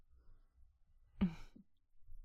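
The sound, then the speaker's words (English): A single yawn: one drawn-out, breathy exhalation with a brief voiced tone, heard alone against a faint low background. “that yawn tells me you're getting sleepy.”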